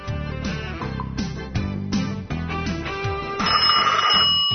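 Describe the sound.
Telephone ringing as a caller is about to join a conversation: repeated tonal ring bursts in a regular pattern, fairly loud, ending in a longer, brighter ring tone.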